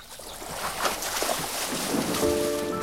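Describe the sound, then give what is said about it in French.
Canoe paddles dip slowly into the water of the Mississippi River, over a steady wash of water and wind noise with no talk. “les canots glissent sur le Mississippi. Leurs pagaies entrent dans l'eau avec lenteur.”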